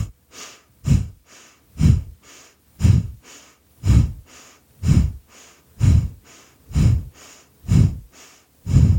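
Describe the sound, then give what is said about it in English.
A person breathing in and out in a steady rhythm, about once a second, with strong breaths alternating with softer ones over many cycles and no talk. “Breathe in. Exhale. Inhale and”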